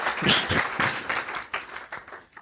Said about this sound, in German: Einmal Applaus für unseren Remote-Speaker.